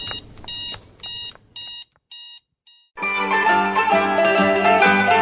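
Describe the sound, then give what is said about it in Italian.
Shop security alarm going off: bursts of high electronic beeping in a quick repeating pattern that thin out and stop, followed by loud, full music. “L'allarme scatterà.”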